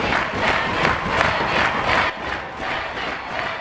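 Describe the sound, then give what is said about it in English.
Crowd of students cheering and shouting in a school assembly audience, a steady, noisy roar of many voices that swells and dips slightly but never stops across the short stretch. “Those are some ultra-left students there in the audience.”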